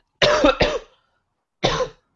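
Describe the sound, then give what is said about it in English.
Three harsh coughs from a person with a lingering cough. Two come close together, then a third follows alone after a brief pause. “Sorry, I still have a cough that doesn't want to go away.”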